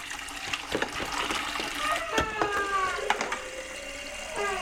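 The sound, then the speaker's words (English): Water runs into a bath as bubbles are added, making a steady splashing gurgle. A voice speaks softly over it. “I'm going to do the bubbles in here. I'm going to put in some water.”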